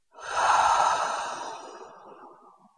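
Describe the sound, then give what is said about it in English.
Audible breathing, one long airy breath that swells quickly, then fades slowly over about two and a half seconds, heard alone with no talk. “Do that one more time. Breathe in and out with sound.”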